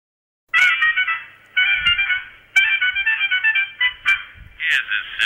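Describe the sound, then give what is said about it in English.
A mobile phone ringtone plays a bright electronic melody in several loud, repeating phrases, starting after a brief silence and continuing to the end with no talk. “That's my phone. That's the wife.”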